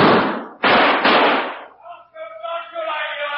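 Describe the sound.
A gunshot during a police confrontation with an armed man in a theater: a few harsh, loud bursts in quick succession, followed by raised voices.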